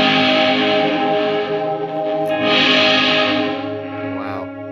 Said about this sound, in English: Let's change the clipping again. Oh boy. Wow, that's a distortion.